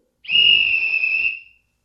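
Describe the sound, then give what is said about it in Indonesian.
One long whistle blast, used as a signal in a children's earthquake-drill game: a single steady, shrill, high tone that holds for just over a second and then stops, heard alone. “Bila kalian mendengar bunyi peluit satu kali dan panjang seperti ini,”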